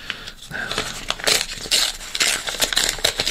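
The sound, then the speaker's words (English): An envelope being opened gives a steady papery crackle and rustle of tearing for about three seconds, busy and fairly loud, with no voices. “I've got to open up the envelope to get the answer out”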